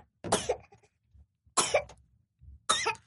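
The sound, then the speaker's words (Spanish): Three short, sharp coughs from a baby drinking from a bottle while drifting to sleep, spaced about a second apart, with faint soft sounds in the gaps between them. “se está tomando su, su biberón y se está quedando profundamente dormido. Y ahorita tosió un poquito. Estaba con los ojos cerrados, pero él sigue tomando.”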